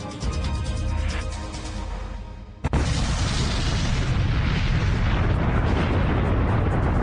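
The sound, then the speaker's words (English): Mount St. Helens erupts, a huge cloud of hot gas and ash bursting sideways from the mountainside. A deep, loud roar sags briefly, then surges back with a sharp crack and keeps rumbling. “Mount St. Helens explodes. A huge billowing cloud of hot gas and ash blasts out. It doesn't shoot up through the mountaintop. It bursts out from the mountainside.”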